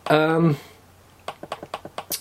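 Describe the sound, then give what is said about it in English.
Quick sharp clicks from scrolling through a Facebook timeline on a computer come in a fast, even run of several taps after a brief voiced sound at the start. “you might have heard clicking in the background there. That was the clicking of me kind of scrolling through my timeline to find the right bit.”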